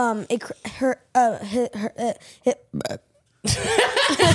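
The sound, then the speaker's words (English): A person burps out of nervousness, producing several short voiced belches in quick succession with wobbling pitch. A brief silence follows, then a louder, breathy, noisy stretch closes the sequence. “When I get nervous, I burp, okay?”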